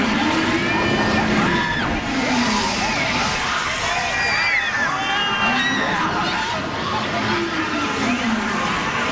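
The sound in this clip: Riders scream on the Beast roller coaster at Playland, with many wavering, overlapping screams rising and falling over a loud, continuous roaring rumble of the moving train throughout.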